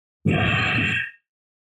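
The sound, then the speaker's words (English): A person imitating the loud, forceful breathing heard in a yoga class: one sustained, rough, breathy exhalation lasting just under a second, loud and alone, followed by silence. “And they're trying to make it as loud as possible. It's almost like a contest. Who can breathe as loud as they possibly can?”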